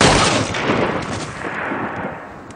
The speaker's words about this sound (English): I will never, ever forget the end of the episode where Dwight shoots Daryl.